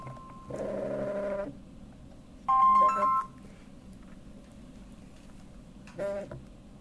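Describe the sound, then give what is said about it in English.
A mobile phone ringtone goes off during a spoken talk, sounding as three short bursts of bright electronic tones separated by pauses over a quiet background. “Just pardon my phone. Normally it's the audience that has the phones on. Shame on you, audience. Who turned on my phone?”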